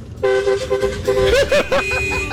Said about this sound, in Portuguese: Estou retribuindo o buzinaço